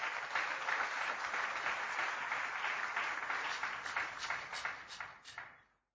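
A church audience applauds after a scripture reading, a dense, steady burst of clapping lasting several seconds before fading out at the end.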